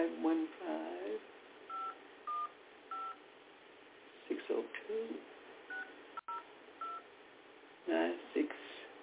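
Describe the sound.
A touch-tone telephone dials a number, sending a series of short, bright beeps spaced irregularly while a person talks between and around them.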